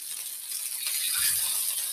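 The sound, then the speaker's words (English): A metal spatula scrapes under a burger patty stuck to the pan, a short, rattly, grinding scrape over a steady sizzling hiss that grows a little louder midway. “Okay, putting my spatula. Oh, come on, it's sticking.”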